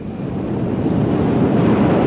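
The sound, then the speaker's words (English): Tide rushing in on the Solway Firth in Scotland: a loud, steady roar of moving water with a broad, wind-like hiss that holds without a break. “It's the tide! It comes in faster than an express train.”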